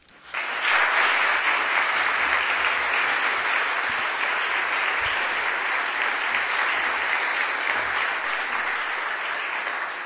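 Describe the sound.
Audience applause welcoming a lecturer before an evening talk: clapping swells in within the first second and then continues as a full, even roar of many hands, easing slightly toward the end.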